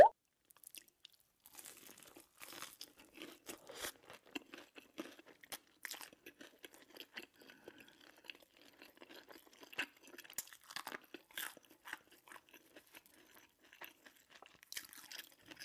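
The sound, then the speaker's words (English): Close, ASMR-style eating with food being crunched and chewed: many irregular crisp bites and wet chewing sounds, fairly quiet and continuous, with no talking. “I was watching ASMR of people eating food. And I'm going to insert a little.”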